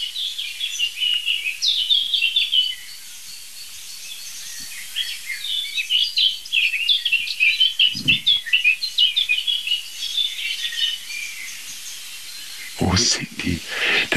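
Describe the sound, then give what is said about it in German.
Blackbird and song thrush singing, a steady run of varied high chirping phrases through most of the passage, with a few brief low knocks and a short gap near the end. “Passt doch nicht, aber es ist Amsel-Singdossel only, würde ich sagen.”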